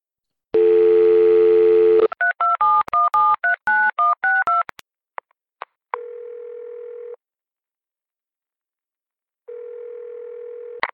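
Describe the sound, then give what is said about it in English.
Phone dialing in a video game: a steady dial tone, then a rapid run of keypad beeps of varying pitch, a few faint clicks, and two long electronic ring tones separated by silence. “Okay, I'm dialing Shade.”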